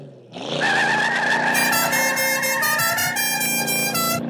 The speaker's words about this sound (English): Was the Dixie horn melody necessary? I know. But it's a well-known signature of that particular fictional vehicle